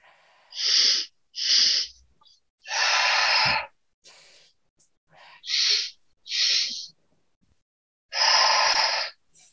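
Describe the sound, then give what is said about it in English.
Deep breathing during a guided breathwork exercise: about six loud, airy breaths at a slow, unhurried pace, some short and some long and drawn out, separated by quiet pauses. “Whatever pace feels good to you, taking in a few more breaths.”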